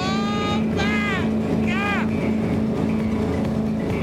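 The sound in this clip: A motorboat engine runs at full throttle while clearing a breakwater, a loud, steady low drone that holds throughout, with people talking over it.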